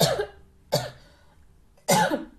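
Coughing and throat clearing from a person with a hoarse throat: three separate short, harsh bursts, each followed by a quiet pause.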